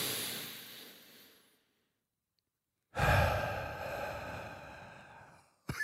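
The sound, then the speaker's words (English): A person imitates a breathing exercise. A long, loud, breathy sigh fades out into silence, then a second long drawn breath follows, and it ends with a brief sniff. “Do you think that she knows that I'm doing a breathing exercise, or do you think that she thinks I breathe weird? Like if you were lying next to someone and they were going like,”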